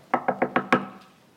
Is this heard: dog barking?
no